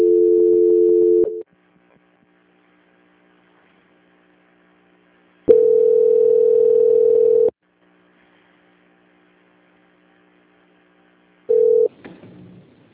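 Telephone line tones during a call transfer: three steady, buzzy mid-pitched tone bursts separated by long stretches of near silence, the first two lasting about two seconds each, the last shorter and followed by a brief crackle.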